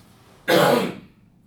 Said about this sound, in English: I have to cough. I'm sorry.